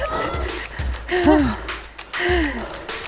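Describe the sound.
Heavy, out-of-breath panting comes from runners during a tiring group run. A few loud gasping breaths repeat, some of them partly voiced, at an uneven rhythm.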